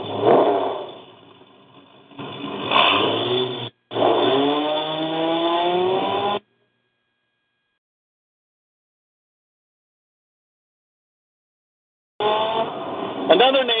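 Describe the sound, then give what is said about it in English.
An off-road racing truck at the Parker 425 roars in separate bursts with silences between them. In the middle burst its rasping engine note revs upward in bright, climbing harmonics. “featured off-road race in here in the Parker 425 that we've called before, the 57 of Beal. And this is a God is Awesome a racing truck.”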